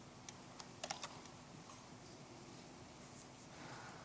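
Faint typing of code on a computer keyboard: a few light, sparse key clicks clustered early, then mostly soft background hiss.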